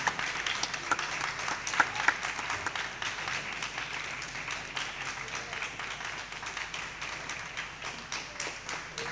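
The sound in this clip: A concert audience applauds, a dense, continuous wash of many hands clapping that stays fairly even and eases off slightly toward the end.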